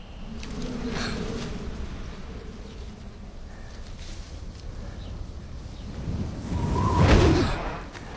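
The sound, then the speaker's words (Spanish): A gust of wind rushes steadily and blows a transparent umbrella to the ground, swelling into a louder whooshing burst near the end. “El viento lanza su paraguas al suelo.”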